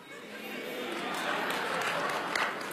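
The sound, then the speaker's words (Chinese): Audience applause at a live stage performance: a dense, even wash of clapping that stays steady and fairly soft throughout, with no clear breaks or peaks. “这些掌声都是发自肺腑的了。”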